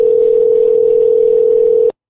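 A steady telephone dial tone plays while a call to someone's voicemail is placed: one unbroken, even mid-pitched hum that holds at a constant level for about two seconds, then cuts off abruptly.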